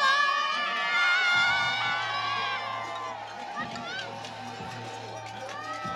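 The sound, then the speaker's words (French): Lycée students cheering and shouting as classmates come out of school during a protest in Sotteville against the baccalauréat reform, a continuous crowd of young voices over a steady low hum. “Il y a des élèves qui ressortent acclamés par les autres.”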